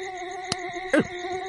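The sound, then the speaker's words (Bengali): Mosquitoes swarm over a bamboo thicket, making a faint, thin, steady whine of layered high tones, broken by two short bursts of noise. “উপর বাঁশঝাড়ে হাজার হাজার মশা পিনপিন করে উড়ে এসে ছেঁকে ধরেছে তাকে।”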